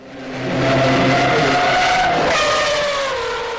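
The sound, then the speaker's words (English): A Mazda 787 race car at Le Mans, with a 700-horsepower four-rotor R26B rotary engine and Porsche transmission. It gives a loud, high, buzzing wail that swells in quickly, holds, then slides down in pitch as it passes, with a skidding hiss. “Now powered by the R26B quad-rotor engine, putting down 700 horsepower through a Porsche transmission, the 787 actually had a fair shot, if it didn't break down.”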